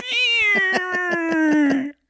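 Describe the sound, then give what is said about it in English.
A cat gives one long, drawn-out meow, loud and tonal. It holds for nearly two seconds, sliding gradually lower in pitch before cutting off. “that cat was just sitting on the bed watching going...”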